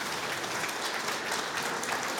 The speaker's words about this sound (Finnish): Ja Koskelan Mika tulee raikuvien aplodien saattamana.